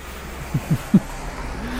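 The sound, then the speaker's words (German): A car passes with a steady low engine rumble, broken by three soft low thumps in quick succession. A faint rising whine comes in near the end. “Und hallo Auto.”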